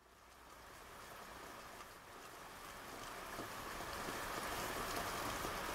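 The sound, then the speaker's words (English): Heavy rain pours down during a drive on a narrow mountain road, making a dense, steady hiss of rainfall that grows gradually louder. The sound stays faint overall, with no voices. “Absolutely insane rainstorm. Not ideal driving conditions.”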